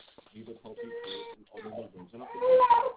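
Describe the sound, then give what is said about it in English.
A baby cries in the background of a phone call, a wavering wail that swells louder toward the end while people talk over it. “I know you can hear the baby in the background”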